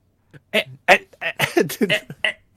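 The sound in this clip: A voice imitating a gagging 'eh' sound, the retching reflex that triggers vomiting, as a run of many short, abrupt throaty bursts in an uneven rhythm.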